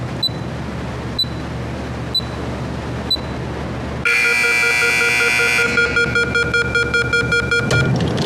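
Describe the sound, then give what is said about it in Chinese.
An electronic door-lock timer beeps four times, short and high, at even intervals of about a second. A much louder, harsh, rapidly pulsing buzzing tone then takes over and continues. “就这个滴滴滴这个声能不能给它关了？特像 CS 里边匪徒下包那种。”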